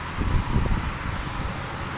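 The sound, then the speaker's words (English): Cars zipping by on the Autobahn, heard from a parking lot beside it, a broad continuous roar of traffic that swells slightly near the start and holds steady. “That's the cars zipping by”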